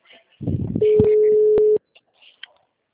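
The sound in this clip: A phone call being placed: after brief speech, a single steady electronic line tone sounds for about a second, cut off by a click, then faint scattered noises.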